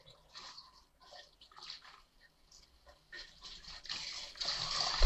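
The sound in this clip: Running water and splashing as someone washes, heard in short intermittent bursts that grow into a louder, steadier flow toward the end.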